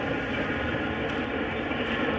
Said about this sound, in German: Ehemalige Geschäftsstraße, der man vor einigen Jahren eine S-Bahn-Trasse gegenübergesetzt hat.